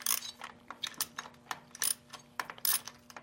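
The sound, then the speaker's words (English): A socket and wrench loosening the front part of a vehicle shift linkage, a 1/2 inch socket and a 7/16 wrench, giving a quiet, irregular series of many small metallic ratcheting clicks. “need a 1/2 inch socket and a 7/16 wrench to get the front part of the linkage loose.”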